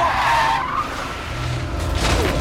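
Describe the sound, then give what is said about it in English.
Tires squeal as a car swerves and skids to avoid a cyclist: a loud, continuous screech that drops in pitch early on, over a low engine and road rumble, with no talking. “Paul drives along a road and looks out of his driver's window at trees and detached houses. At his driveway, Adam cycles out in front of the car. Paul swerves, narrowly misses him, and Adam falls over.”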